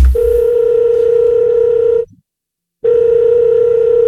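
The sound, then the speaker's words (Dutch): Telephone dial tone while placing a call: a loud, steady, unbroken tone that cuts out for under a second and then resumes at the same level to the end. “Ik ga gewoon zelf eens bellen.”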